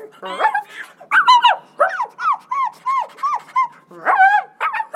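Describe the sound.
A dog lets out a run of many short, high yips and whimpers in quick succession, each one loud and sharply pitched with brief gaps between.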